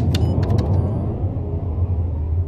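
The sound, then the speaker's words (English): A spaceship's main drive engages after the retros are cut, giving a steady, deep rumbling roar that holds level throughout, with a few brief higher clicks near the start. “Giles, cut the retros. I'll engage the main drive. Right. Here we go.”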